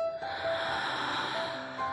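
A deep breath drawn in through the nose during a guided relaxation exercise: a steady, airy hiss that swells and holds for most of two seconds.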